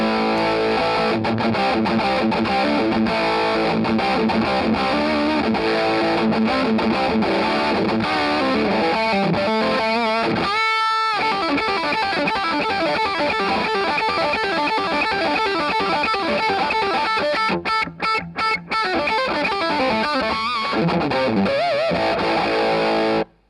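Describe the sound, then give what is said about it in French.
Electric guitar played through an overdrive pedal boosted by a Centaur clone, giving thick, sustained distorted chords and notes that ring loud and continuous, with a brief break near the middle. “J'ai mis un clone de clone Centaur en amont de la pédale pour la booster. On va voir ce que ça donne.”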